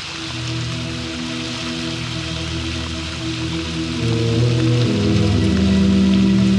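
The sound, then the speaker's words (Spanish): Heavy tropical rain pours over a river in a dense, steady hiss that grows louder after about four seconds, with low sustained droning tones running underneath throughout. “Una vez en el centro del río, bajo la intensa lluvia tropical”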